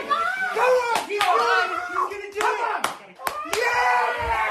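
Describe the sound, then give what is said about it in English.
Members of a cross-country ski team cheer while watching a race on TV. Their excited shouts are loud and overlapping, punctuated by several sharp slaps or claps. “That's the sound of members of the U.S. cross-country ski team watching Gus Schumacher on TV as he won the race in Germany”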